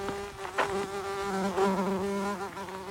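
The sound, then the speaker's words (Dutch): Bumblebees buzz around a sea of red poppies in a vegetable garden. The drone is steady and low-pitched, swelling and easing slightly as the insects move, with no talk. “Ik wou bijengeluid opnemen, maar die hommel, vooral de hommels werken goed mee.”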